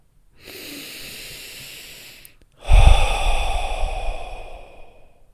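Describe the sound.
Someone takes one deep breath in and lets it out. A long, soft, airy inhale lasts nearly two seconds, then after a brief pause comes a louder, rougher exhale that slowly fades away.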